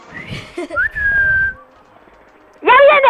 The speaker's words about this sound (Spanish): Silbar, que no sé silbar. Silbar, a ver si lo oye. ¡Más alto!